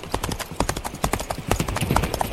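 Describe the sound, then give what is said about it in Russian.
A horse trots at a long, fast trot, its hooves making many rapid, fairly regular clip-clop strikes that keep an even, driving rhythm from start to finish. “Конь побежал крупной рысью, но Дик без труда поспевал за ним.”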